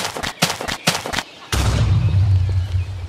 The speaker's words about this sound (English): A creeper! And it's about to explode.